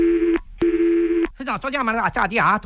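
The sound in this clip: Two steady buzzing phone-line tones sound while a call is being transferred, each about half a second long with a short gap between them, and then a person starts talking.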